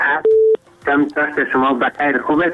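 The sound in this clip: A brief steady electronic tone sounds as a caller's line connects on a radio phone-in. Voices speak just before it, and talk resumes right after it.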